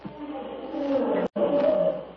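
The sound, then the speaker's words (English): A lion roars in a dark jungle at night, a sustained, rough, low rumble. It breaks off in a brief gap near the middle, then resumes just as loud. “That lion, Tarzan. He's very close.”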